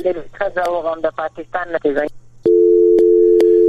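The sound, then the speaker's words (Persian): A steady telephone dial tone sounds after a call is cut off during a phone-in. It follows a stretch of talk and then holds alone at an even pitch and loudness. “نو د دې ټلیفون قطع شو”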